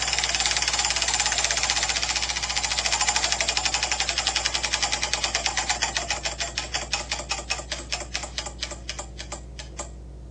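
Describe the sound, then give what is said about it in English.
A prize wheel is given a hearty spin, its pointer clicking in a fast, dense rattle that gradually slows into evenly spaced, distinct ticks before stopping. “give that wheel a spin? Yeah, let's make this thing happen. That was a hearty spin.”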